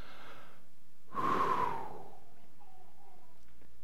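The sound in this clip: A single deep breath: a soft, airy rush of breath lasting about a second, rising and fading on its own against a quiet background.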